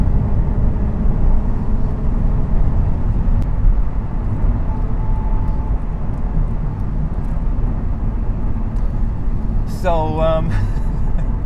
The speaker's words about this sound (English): I'm gonna have to do a bit of driving here.